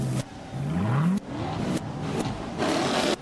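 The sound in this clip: A Chevy car engine revs hard, its loud, rough growl climbing in pitch during a quick burst, with the sound chopped by several abrupt breaks.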